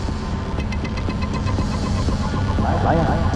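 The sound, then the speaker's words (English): Traffic rumbles past a bus stop outside a school, vehicles whizzing by in both directions as a steady engine hum and throb that swells slightly toward the end. “Now at a bus stop outside the school, Maya sits on a bench and stares into traffic. Slowly, she rises, contemplating the vehicles whizzing past in each direction.”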